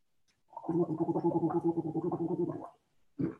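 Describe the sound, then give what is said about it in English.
Gargling water before a meal: a rough, bubbling throat gurgle held for about two seconds, then a short burst after a pause. “Even something as simple before meals as gargling.”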